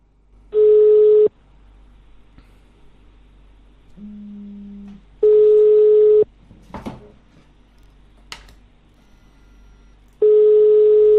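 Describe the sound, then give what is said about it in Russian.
Telephone line tones during a redialed call: three long, steady beeps about four seconds apart, with a lower, quieter tone and a few faint clicks in the gaps between them. “Так, сейчас еще раз наберу, спрошу, с какого он города, антиколлектор Воронеж.”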